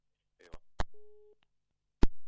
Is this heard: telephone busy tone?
yes